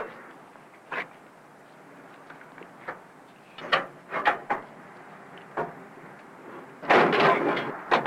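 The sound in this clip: A crowbar pries at a car hood whose release is broken, giving a scattered series of faint knocks and clunks, with a denser scraping burst near the end.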